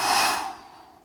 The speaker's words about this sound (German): Mach einfach die Augen zu und atme ein und spür richtig, wie sich die Bauchdecke hebt.